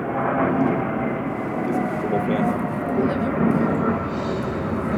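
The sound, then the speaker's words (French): An airplane passing overhead gives a steady, broad roar with a low rumble that holds nearly level throughout, loud and continuous with no clear rise or fade. “Un avion. Un avion, ouais, un avion, c'est assez dur, c'est presque du bruit.”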